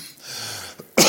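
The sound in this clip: A cough from a person with a hoarse, troubled voice during a sermon: a faint breathy throat sound, then one short, sharp, loud cough bursting out at the end, with no talking.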